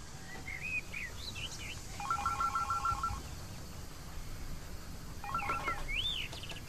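A telephone rings in two bursts of rapid, high trilling tones separated by a pause, with short warbling chirp-like tones over steady background hiss.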